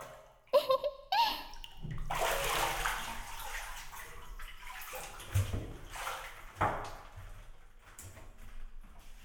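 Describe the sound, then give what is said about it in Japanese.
Water sloshing and splashing as someone gets up out of a bath, with a few sharp splashes early on, then a steady swishing and dripping that fades and swells. “さあ、というわけでお兄さんもお湯から出てあっち行きましょう。”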